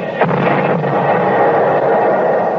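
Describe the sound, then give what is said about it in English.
An artillery shell explosion comes through as a dense, continuous rumbling roar with a couple of faint sharp bursts near the start, holding a steady loudness throughout. “They just dropped a shell behind themselves.”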